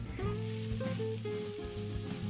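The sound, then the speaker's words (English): Fried vegetables tossed into cooking oil in a pan for a high-heat stir-fry, giving a steady, loud sizzling hiss that runs through the whole short clip. “In the same pan, add some cooking oil, then throw in the fried veggies.”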